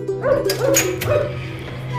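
A dog yips and whimpers at a railway station as people prepare to leave, giving a few short, high, whiny cries early on over a steady low hum.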